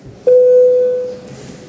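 A parliament chairman's bell rings once as a single loud, steady mid-pitched electronic tone that holds for under a second and then fades away, with no talk.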